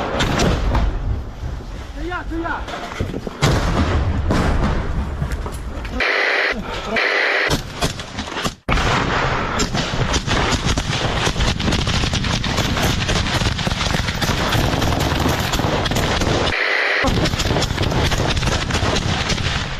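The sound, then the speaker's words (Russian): A grenade explosion in a combat setting, buried in a loud, harsh and distorted wash of noise with crackling bursts like gunfire, broken by a few abrupt dropouts, and voices audible in the mix. “Граната вирвала! Це заряджає!”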